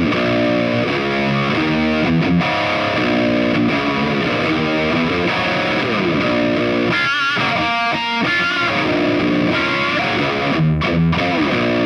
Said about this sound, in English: It's sort of buzzy and warm, and that's pretty much the amp distortion on its own.